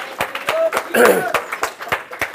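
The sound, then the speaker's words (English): An audience clapping in a fast, regular rhythm during a church service, with the sharp claps running over voices that swell briefly in the middle. “Oh, I think we can clap. If we are going to clap, we should clap. Really give him an amazing clap.”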